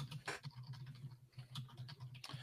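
Faint keystrokes as someone types a query on a computer keyboard, an irregular patter of soft clicks over a low, steady hum.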